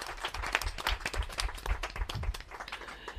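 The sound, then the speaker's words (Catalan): An audience applauds loudly after a song, a dense and steady burst of many claps mixed with heavier, thumping hits, holding at a strong level throughout with no speech. “Fort aplaudiment, molt bé.”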